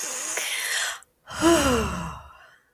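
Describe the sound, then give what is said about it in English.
A deep breath taken during a guided calming exercise: a soft, airy inhale, a brief silent pause, then a longer voiced sighing exhale that slowly fades away. “Give yourself a breath. I'll breathe with you.”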